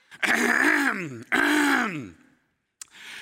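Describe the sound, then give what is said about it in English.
A man's exaggerated throat clearing, the pointed warning kind a parent makes at a misbehaving child: two loud voiced groans, each sliding downward in pitch, followed after a pause by a short faint noise. “let me clear my throat.”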